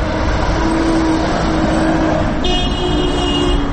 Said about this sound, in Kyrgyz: Мен азыр Ленин жана Гапарайтиев көчөлөрүнүн кесилишинде турам.